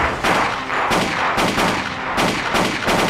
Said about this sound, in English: One of the madmen panics and opens fire.